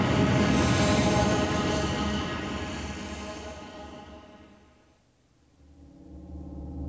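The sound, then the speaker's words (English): A roaring sci-fi landspeeder engine at full throttle, a broad rushing drone that slowly fades to a brief lull and then swells back up, with no voices. “The old man climbed in, and Anakin put the landspeeder into full throttle.”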